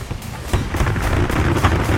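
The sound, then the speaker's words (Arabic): Cannon shots are fired from a pirate ship: a few deep booming blasts stand out over a dense, rumbling background. “كم طلقة من المدافع ويقفز البحارة على ظهر السفينة.”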